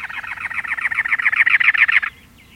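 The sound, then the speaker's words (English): A cactus wren sings from atop a prickly pear cactus in the Arizona desert: a loud, rapid, even run of many harsh, raspy chugging notes that stops abruptly, leaving near silence. “A cactus wren sings, perched atop a many lobed cactus.”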